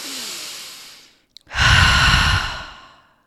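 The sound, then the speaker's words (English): A deep breath drawn in through the nose during a guided breathing session. A steady airy inhale is followed by a short pause and a tiny click, then a longer, louder and fuller exhale out through the mouth, with no talking. “we're just going to do some nice deep inhales through the nose and exhales out the mouth”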